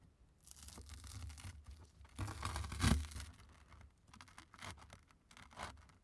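A knife cuts into a baked dish with melted cheese, making faint scraping and crackly tearing strokes over several seconds, with one louder crunching bump near the middle.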